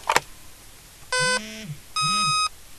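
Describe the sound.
Two short electronic beeps from a battery-level check on a portable one-seg TV with FM/AM radio, sounding alone and fairly faint with a clear gap between them, preceded by a brief click.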